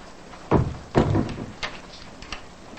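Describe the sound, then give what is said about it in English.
A door swings shut with two dull thumps in quick succession, then a few lighter clicks and taps that trail off quietly. “She closes the door and walks off.”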